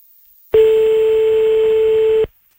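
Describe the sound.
A single steady telephone tone sounds as a call is placed back, holding one even pitch for under two seconds before it cuts off cleanly. No voices are heard.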